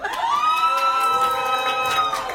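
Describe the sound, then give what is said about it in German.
An audience at a competition shouts "hoi" together on request, a sustained crowd voice held at a steady pitch for about two seconds with cheering around it. “Also wie viele Leute haben denn so jemand da in diesem Publikum von euch? Rufen Sie mal hoi.”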